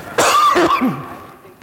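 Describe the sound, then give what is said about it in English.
A person gives a short, loud cough during a conversation, a brief harsh burst with no talk over it that trails off into quiet. “I'm going to cough.”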